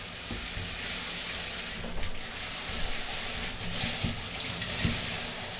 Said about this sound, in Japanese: じゃあそろそろシャンプー流しちゃおうね。